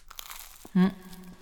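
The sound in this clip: A single short, crisp crunch as someone bites into toasted bread topped with corned beef darkened with mentsuyu, standing out clearly against an otherwise quiet background.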